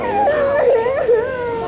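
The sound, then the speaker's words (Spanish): Desperate crying from children separated from their parents under a zero-tolerance policy toward undocumented immigrants. The loud, continuous wailing wavers up and down in pitch without pause. “de audio en la que se escucha a niños llorando desesperadamente y rogándole a sus padres después de ser separados de ellos”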